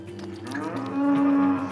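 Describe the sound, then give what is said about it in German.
Cattle mooing during a difficult calving with the calf lying wrong: one long, loud, low moo that swells and holds steady toward the end. “Das Kalb liegt falsch. Wollen Sie es sterben lassen?”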